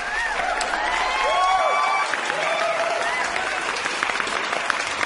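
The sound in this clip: Canned audience applause taken from YouTube: dense, steady clapping from a large crowd, with a few cheering voices and whoops rising over it throughout.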